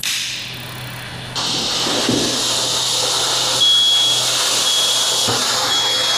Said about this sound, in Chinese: 在中控室里面看到了它的烟感发生了报警现象，这也说明我们的杀虫烟剂会对我们的烟感产生一个误报的现象。